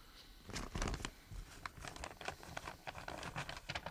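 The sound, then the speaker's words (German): Hair is shaken out of an envelope onto the floor in a radio drama: faint crinkling of paper and many light, irregular pattering taps, with no talking. “Da. Im Umschlag. Schütte sie auf den Boden.”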